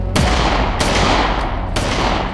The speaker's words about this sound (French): dégaine et il tire sur le motard. L'homme s'en sort, ça n'était que des balles en caoutchouc.